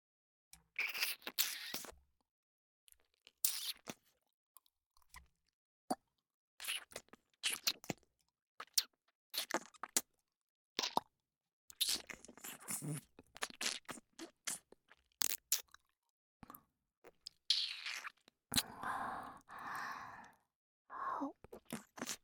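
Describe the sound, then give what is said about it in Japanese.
Quiet ear-licking ASMR mouth sounds come in many short bursts of wet smacks, slurps and soft clicks, separated by irregular silent pauses. No one speaks. “では、耳舐めの方を開始させていただきます。”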